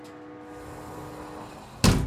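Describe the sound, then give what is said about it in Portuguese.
A corridor door is closed, heard as a single sharp, heavy thud near the end, following a low, steady humming background. “Vou fechar a porta do corredor”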